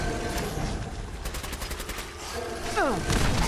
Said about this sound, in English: Yeah, that killed him! Oh yeah, killed the Mire Lurk King. With a grenade.